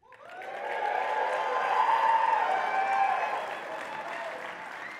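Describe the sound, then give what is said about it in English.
Loud applause from the GCF Central audience at a 20-year anniversary gathering, with some cheers mixed in. It swells quickly in the first half second, holds steady as a dense wash of clapping, and eases slightly toward the end. “If you are from GCF Central, please make some noise.”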